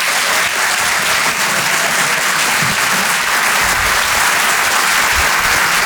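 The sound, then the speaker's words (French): Comedy club audience breaks into sustained applause, a dense, even rush of clapping that stays loud and unbroken from start to finish with no voices on top. “Faites un maximum de bruit, s'il vous plaît, pour Régis Maillot.”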